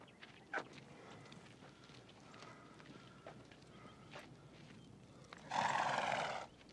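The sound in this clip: A horse neighs in one loud, sustained whinny near the end as a wounded rider struggles to mount it. A few faint knocks and footfalls come before it.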